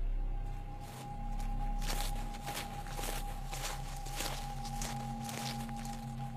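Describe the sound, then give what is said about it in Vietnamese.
Footsteps move about an overgrown garden at night around two in the morning, soft, faint scuffing steps repeating unevenly over a steady low electrical hum. “Bên ngoài khoảng vườn tùm cây cối, bỗng nhiên có tiếng bước chân ai đó đi lại ở sau vườn.”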